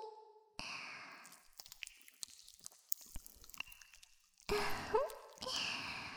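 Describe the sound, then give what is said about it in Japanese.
Body soap dripping onto a body makes quiet, wet squishing and scattered soft drips, with a denser slippery burst near the end. “からボディーソープをうちの体に垂らして、旦那さんの背中に、”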